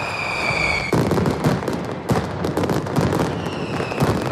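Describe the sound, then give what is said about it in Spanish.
A mascletà firecracker barrage by Pirotecnia Mediterráneo in Plaza de Luceros during the Hogueras de San Juan: loud, rapid, continuous bangs and crackles, with high whistling tones at the start and near the end. “Una mascleta que en esta ocasión ha ido a cargo de Pirotecnia Mediterráneo.”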